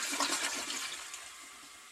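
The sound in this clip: A toilet flushes with a loud rush of water that peaks at the start, then gradually fades over about two seconds.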